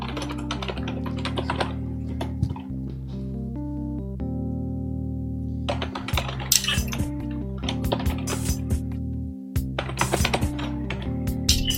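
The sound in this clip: Typing on a computer keyboard during a game session: many quick, irregular key clicks in dense bursts, with a pause in the middle, over a steady tonal background.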